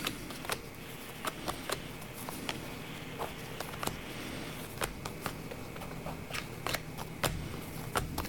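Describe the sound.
Playing cards being drawn and laid out for a fortune-telling reading make a series of quick, crisp flicks and soft slaps. They repeat at an uneven pace over a faint, steady background, with no voices.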